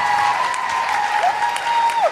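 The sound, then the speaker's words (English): Concert audience applause, a dense, steady roar of many hands clapping, with a sustained whistle riding over it that dips in pitch twice. “Vancouver, could you give yourselves an enormous round of applause for coming out, getting through the snow?”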